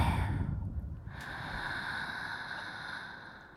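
A deep breath is drawn in during a guided breathing exercise. It is a soft, airy hiss lasting a few seconds that tapers off toward the end.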